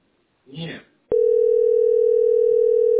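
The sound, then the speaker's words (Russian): A steady telephone line tone, heard while calling a city billing center in Saint Petersburg. It starts abruptly after a brief spoken word and holds at one unbroken pitch to the end. “Звоню в это расчетный центр СПБ.”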